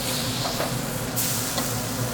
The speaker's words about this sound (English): Inside, gold bug burgers sizzle on the grill.